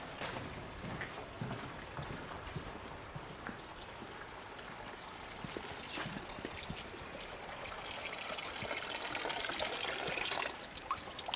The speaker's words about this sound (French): Et c'est à cette fontaine-là que t'as l'eau. Elle coule tout le temps.